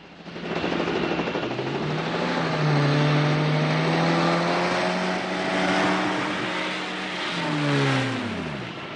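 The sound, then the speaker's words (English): A jeep engine in mountain country as the vehicle drives and comes to a stop: a steady, droning motor whose pitch wavers, then drops away near the end, with no voices. “They circle between two peaks as Johnson drives the Jeep to a stop.”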